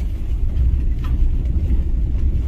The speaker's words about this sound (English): There he is. I'm driving past him again. Just turned around.